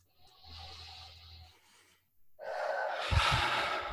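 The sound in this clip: A deep breath in and out during an emotional freedom technique tapping session. A soft, hissing inhale is followed by a brief pause, then a longer and louder gusty exhale with low buffeting thumps.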